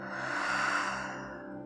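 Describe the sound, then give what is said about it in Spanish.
A deep exhale leaves through the mouth in a breathing exercise for meditation, a soft, breathy rush that swells and then slowly tapers off over less than two seconds, faint and alone. “Así que primero inhala profundo por tu nariz, llena tus pulmones hasta el fondo. Por tu boca deja salir todo el aire.”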